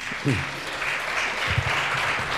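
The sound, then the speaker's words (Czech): Festival audience applause, a steady wash of clapping at moderate volume, with a voice speaking briefly over it near the start and again toward the end. “tak samozřejmě už to bude vypadat, že ten potlesk je o něco snižší.”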